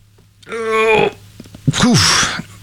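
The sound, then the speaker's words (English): A stifled sneeze, fought back and held in the bridge of the nose. A strained, drawn-out vocal sound comes first, then a short, breathy, suppressed burst. “I just fought off an insane sneeze. That just sat right in the bridge of my nose.”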